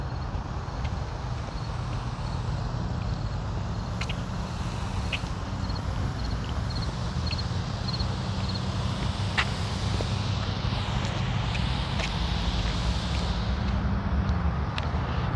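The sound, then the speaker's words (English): Garden lawn sprinklers running: a steady, unbroken hiss of spraying water with scattered faint clicks and ticks, and no voices. “That sound you hear is my sprinklers.”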